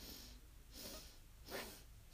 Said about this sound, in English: Yeah, well, just like each like going up a lift, each floor is one breath, so a sip. So when you're breathing in for four, you go,